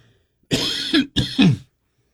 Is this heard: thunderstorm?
no